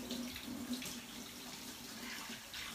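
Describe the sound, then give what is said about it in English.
Running tap water while hands are washed during cooking, a steady, quiet splashing hiss that continues unbroken from start to end. “That's all of this done, making sure that you're getting your hands washed straight away.”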